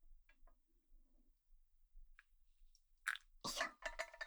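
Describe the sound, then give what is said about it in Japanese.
Coffee being made by hand, with a few faint ticks and light crunchy clicks followed by louder, rough bursts of noisy rustling and pouring toward the end. “待ってね。今美味しいコーヒー入れてあげるからね。”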